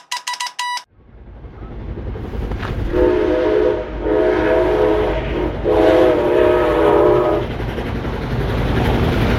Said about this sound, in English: That's the sound of an almost 100-year-old steam train that blew through Washington on June 28.